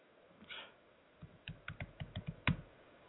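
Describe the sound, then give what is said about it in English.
Typing on a computer keyboard: a quick burst of crisp keystroke clicks follows a faint earlier rustle, fairly quiet throughout. “I can't type today.”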